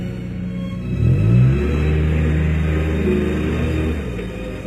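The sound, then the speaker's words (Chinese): A car's engine rumbles and revs as the driver angrily pulls away. The low drone swells early, then holds steady and eases slightly toward the end. “刘媛的话伤了李青的心，李青愤怒地开车走。”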